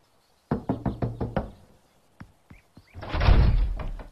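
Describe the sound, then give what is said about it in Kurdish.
Knocking on a door in an animated cartoon: a quick run of sharp, hollow knocks, then a few single thuds and a long, loud, rumbling burst of noise. “وەستە لە دەرگا بدەین؟ با لە دەرگا بدەین.”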